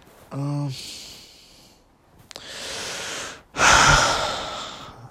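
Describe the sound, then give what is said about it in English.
A man takes a deep breath, with a long airy inhale followed by a heavier, forceful exhale that trails off. A short voiced sound comes just before the breathing. “Sorry for that deep-ass breath.”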